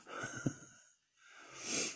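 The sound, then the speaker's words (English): Nose sniffling: two breathy intakes separated by a brief silent gap, the second longer and swelling in strength, faint and alone. “Now, I know a lot of you are focused on my, fucking sniffles.”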